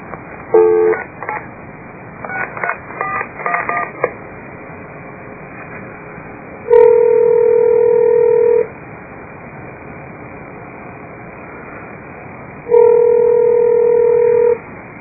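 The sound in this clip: Telephone dialing for a call: a few quick touch-tone key presses, then two long steady ringing tones separated by a pause, all over a faint line hiss.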